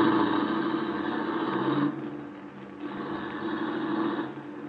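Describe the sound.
A car engine as the car is driven away, a steady mid-pitched hum that dips quieter for about a second midway, then swells again and runs on evenly.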